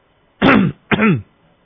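Two short, deliberately forced coughs made during prayer, throaty and fairly loud. The second comes just after the first and is slightly briefer, and silence follows.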